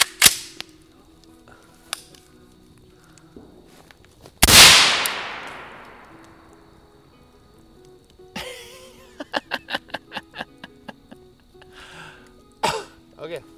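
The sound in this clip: A gunshot cracks out sharply and fades over about two seconds, surrounded by quieter clicks, handling noises and a run of short taps, with people talking briefly around it.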